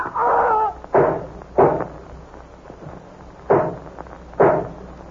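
Gunshots ring out in a radio drama as a man is shot with two guns: a few sharp, loud cracks come at irregular intervals, each one short and punchy.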